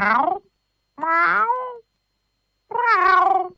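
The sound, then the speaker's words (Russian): A cat meows three times, each meow a clear, loud, wavering cry with pauses between, and no other sound alongside. “Кот снова несколько раз мяукнул. Это было самое обычное кошачье мяу.”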